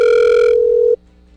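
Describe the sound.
A telephone ringing tone sounds while a call is being placed: one steady, buzzy, mid-pitched tone lasting just under a second, then it cuts off abruptly to near silence.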